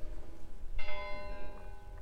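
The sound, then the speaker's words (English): Church bells ring out, a rich cluster of sustained, overlapping metallic tones that begins suddenly after a quiet moment and lingers over a low background rumble. “Slight distraction that I'm feeling from the bells, but that's fine.”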